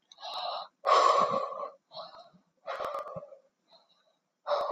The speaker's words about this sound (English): What did the yoga teacher say again? Oh yeah, 3 deep breaths.